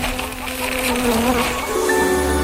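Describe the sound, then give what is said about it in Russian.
Bees and mosquitoes buzz after flying into a room through an open window. The loud, continuous drone has several overlapping tones that waver and shift in pitch, with no voices. “Кто же это окно не закрыл? Налетели пчелы с комарами.”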